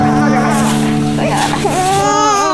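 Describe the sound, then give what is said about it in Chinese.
A baby cries loudly and continuously during a doctor's visit, while an adult speaks soothingly in Mandarin over the crying. “好了，不哭了啊，不哭了啊，走了啊。”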